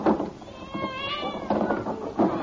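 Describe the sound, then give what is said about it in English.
Cats meow after being let out of a delivery box: a drawn-out, wavering meow with a clear tonal cry, set over steady background noise. “Those are Panama cats? Hey, I know those cats. They look like plain cats to me.”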